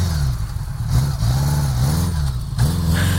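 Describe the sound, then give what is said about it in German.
Honda Gold Wing heavy touring motorcycle, a big bike laden with luggage cases, rumbling with a deep low engine note that swells in a couple of short revs. “Kenner, erkennen Sie am Knatterton? Das ist eine Goldwingen. Schweres, dickes Reisemotorrad, oft eine üppig bestückte Maschine mit Koffern für einiges an Gepäck.”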